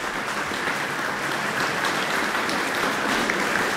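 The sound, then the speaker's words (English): Warm audience applause in Jubilee Hall after the New Zealand String Quartet performs a newly commissioned work, with the composer present. The clapping is an even, moderately soft wash of many hands, steady throughout. “Louise Webster is in the audience here in Jubilee Hall, so she's receiving warm acknowledgement now from the quartet and the audience.”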